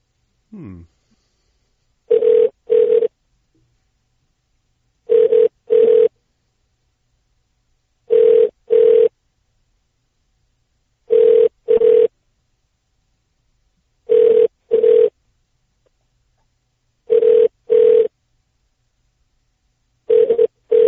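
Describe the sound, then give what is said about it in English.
Telephone ringback tone while a call is redirected to a neighboring store's number: evenly spaced double rings, one pair about every three seconds, steady, mid-pitched and moderately loud, with no talking. “Okay, nobody's answering there, so I'm going to try Connection Center, which is a neighbor. You'll hear a little pause in between because I'm redirecting you.”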